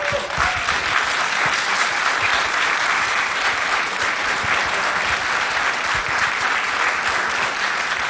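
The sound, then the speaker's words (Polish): Audience applause for a singer receiving an award at an evening ceremony: thick, sustained clapping from many people that holds an even level for the full eight seconds without fading. “Bardzo prosimy o klaski”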